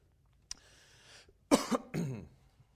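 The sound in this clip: A person coughs after something went down the wrong way, giving two harsh, throaty coughs with a throat-clearing rasp after a faint click, then quiet.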